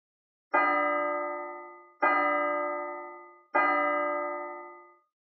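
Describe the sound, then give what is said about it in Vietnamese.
A temple bell is struck three times at an even pace, each rich, resonant tone ringing out and slowly fading before the next strike, alone without voices. “Chuông chùa ngân nga, tiếng trống chiều tà trầm trầm.”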